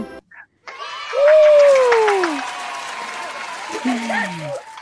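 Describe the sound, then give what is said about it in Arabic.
Applause for a child on a children's program, clapping that swells after about a second and carries on under voices calling out over it. “نسمع سقفة كبيرة جدا جدا جدا لليلى”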